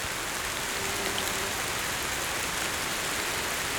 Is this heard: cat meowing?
no